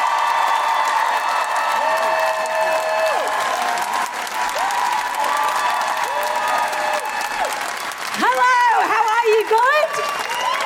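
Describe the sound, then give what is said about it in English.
Live audience applauding and cheering to welcome a comedian onstage at an Edinburgh Fringe comedy show. Dense, steady clapping runs throughout, with whoops and shrill whistles rising near the end. “Put your hands together and make wonderful, welcoming Guilty Feminist noises for the wonderful Felicity Ward!”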